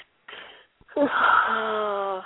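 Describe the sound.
A mother's yawn: a brief breathy intake, then a drawn-out voiced moan that swells and holds a steady tone until the end, moderately loud.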